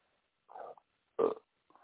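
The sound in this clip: Belching from a man, three short, low, guttural bursts with the middle one loudest and roughest, separated by silence.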